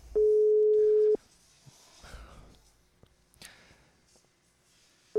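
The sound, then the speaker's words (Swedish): A telephone ringback tone while a call connects: one steady single-pitched tone lasting about a second, then a long quiet gap with faint breathing, and the next tone just starting at the very end. “nu ringer vi min babymamma. Nu ska vi se om hon svarar då.”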